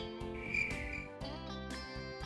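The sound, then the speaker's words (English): Crickets chirping in a continuous buzzing trill, with a few slightly stronger pulses and no voices over it. “Chirp, says the crickets. Cri, cri, dice el grillo.”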